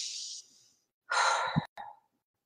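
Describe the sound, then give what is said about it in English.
A person breathes deeply, with soft airy breaths and then a fuller sigh-like exhale after a short pause. There is no talk. “I can just pause. I can breathe in the sun ray coming through my window.”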